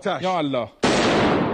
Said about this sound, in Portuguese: o apresentador recebe orientações de um militar sobre como usar um fuzil AK-47. Depois de carregar a arma, ele dispara dentro do estúdio.